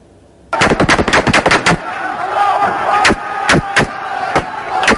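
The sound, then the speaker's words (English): Insurgents fire guns into the air in jubilation after storming the provincial capital of Raqqa in northern Syria: rapid bursts of automatic gunfire crackle loudly, then scattered single shots ring out over a roaring, shouting crowd. “Foreign-backed insurgents firing into the air in jubilation after storming the provincial capital of Raqqa in northern Syria.”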